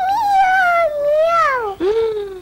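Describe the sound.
A small child's voice imitates a cat's meow: a few drawn-out, high-pitched mews that waver and glide in pitch, loud and clear with no other sound.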